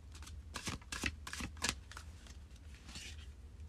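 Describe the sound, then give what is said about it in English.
Witch's Wisdom Oracle cards are shuffled in a few quick riffling bursts during the first two seconds, followed by softer rustling. The sound is fairly faint and has no voices. “So let's pull a Witch's Wisdom Oracle card here”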